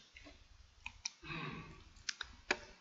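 A few faint, sharp clicks come from a button pressed to restart playback, spaced irregularly, with a soft rustle between them.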